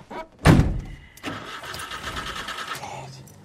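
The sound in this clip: A car engine cranks but fails to start because of a dead battery, a steady churning drone lasting a couple of seconds after a sharp loud thud.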